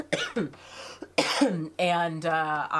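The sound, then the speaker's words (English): A few harsh, raspy coughs come from a person with a lingering cough after COVID. They arrive in short bursts, followed by a brief voiced sound. “sorry for all of the coughing”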